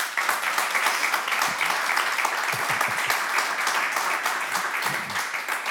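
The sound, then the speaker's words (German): An audience applauds to vote for a recording in a listening contest, a steady, dense wash of clapping that holds at an even level without a break. “Ich rufe auf, Sie applaudieren oder eben nicht.”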